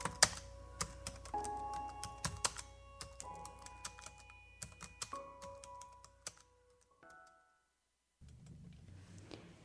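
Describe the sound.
Faint typing on a computer keyboard: many quick, irregular keystroke clicks tapping along for several seconds before the typing stops and near silence follows.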